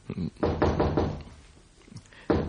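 Knocking on a door in a radio drama: a quick run of several solid knocks, then a short lull and one more knock at the end.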